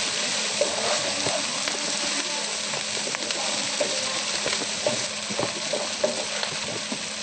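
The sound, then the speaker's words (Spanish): Frying gnocchi filling seasoned with salt and spices sizzles in a pan until golden. A dense, steady hiss runs throughout, with many small pops and crackles and no voices. “Fritamos bien doradito.”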